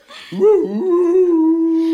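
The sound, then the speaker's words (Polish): A dog behind a door gives a long howl: a short rising yelp slides into one steady, whine-like tone that holds for well over a second, heard alone. “Kto tam puka? Kto tam tak szczeka za drzwiami? Boję się.”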